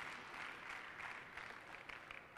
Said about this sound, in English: Why don't you clap for a moment? It's Sunday school. It's all right.